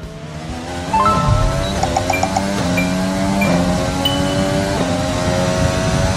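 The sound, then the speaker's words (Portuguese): A Formula 1 car's engine on a fast lap of Spa-Francorchamps in a racing video game, a loud high whine that climbs with the revs and drops sharply at a few gear shifts, running without a break. “a gente vai pegar agora uma carona no mundo virtual, dentro de um cockpit, durante uma volta rápida digital na pista belga.”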